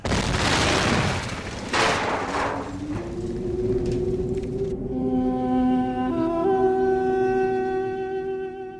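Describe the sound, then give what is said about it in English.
Explosion of a huge airship: deep rumbling booms, with a couple of broad blasts in the first two seconds, then the roar thins out beneath sustained tonal notes that hold to the end. “It came down crashing near me. Red Martians were falling from the side of the huge ship. And then it exploded again.”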